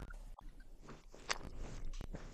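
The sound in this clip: A can of Hartwall Original Long Drink gin and grapefruit is opened, with a faint sharp pop and a brief hiss among quiet handling rustles and clicks.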